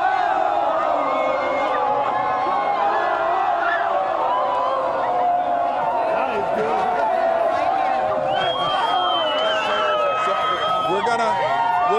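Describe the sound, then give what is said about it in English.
Proud Houston Astros fans cheering, whooping and shouting as officers lead them through the streets: continuous loud crowd noise with many overlapping voices and calls throughout. “And so these officers are leading a group of very proud Astros fans as they come through the streets. Let you listen to them.”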